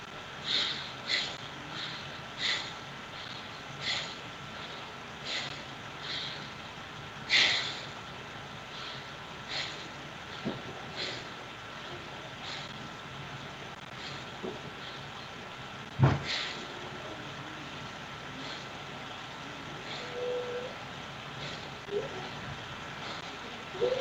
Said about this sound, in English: So we're going to do 20 connected breaths, which is four short breaths, followed by one long breath, four times.